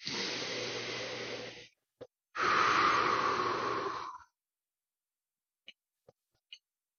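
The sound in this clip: Deep breathing: two long, breathy rushes of air, each lasting about two seconds, with a brief gap between them. A few faint, short clicks follow in the quiet after.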